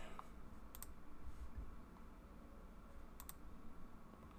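Faint computer mouse clicks: two quick pairs of sharp clicks, one early and one later, over a low, steady background hum.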